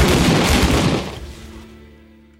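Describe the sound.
A firing squad's volley: one loud, sharp burst of gunfire rumbles and fades out over about two seconds.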